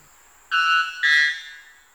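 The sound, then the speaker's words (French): Metallic song of a white bellbird in the Amazon rainforest: two loud, ringing, bell-like notes follow each other closely, the second slightly higher, over a faint constant high hum. “Si le jet des chênes est l'alarme des forêts hexagonales, l'Araponga blanc est le carillon de la forêt amazonienne. Son chant métallique caractéristique est si puissant”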